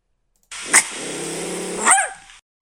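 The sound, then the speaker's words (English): A dog barks, the speaker's own pet: two sharp, loud barks with a low, rumbling growl held between them, then a quick fade. “And that sound is our top dog. So the top dog, and that's coming from my dog, Lily.”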